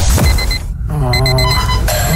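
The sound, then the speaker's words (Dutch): An alarm clock ringing with bright, steady electronic tones that break off briefly near the middle, then resume with a shifted, layered pattern, loud and with no talk over it. “Er is eigenlijk maar één wekker die het echt waard is om voorop te staan.”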